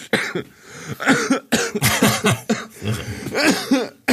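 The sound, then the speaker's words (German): Harsh, rapid coughing after choking on a piece of egg, many throaty, partly voiced bursts in quick succession, loud and uneven, with brief gaps between the fits. “Ich verschluck mich am Ei und du hustest dich tot.”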